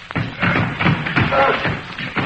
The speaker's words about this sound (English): Sounds like someone trying to force the door open.